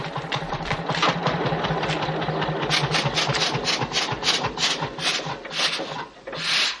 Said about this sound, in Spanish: Mira el tractor. Se acerca y apaga el motor.